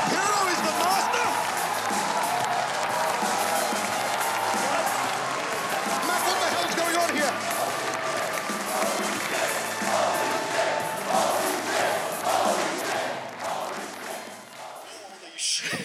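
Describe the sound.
A wrestling audience goes wild in a dense, continuous roar of cheering, shouts and scattered clapping that stays loud for the whole stretch before easing slightly near the end, with voices talking over it.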